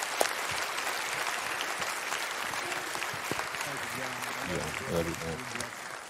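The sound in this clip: Congregation applause welcoming a visiting pastor at a church service, steady sustained clapping throughout, with a voice starting to speak over it near the end.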